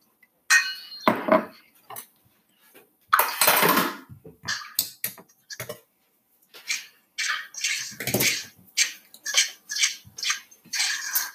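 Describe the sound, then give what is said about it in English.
A spoon scrapes and clinks around a bowl as dry chocolate chip cookie ingredients are mixed, in many irregular bursts separated by short pauses, with no talk. “So now we're just gonna mix it up. Mix up all the dry ingredients. Be careful not to get a lot of the dry ingredients out of the bowl”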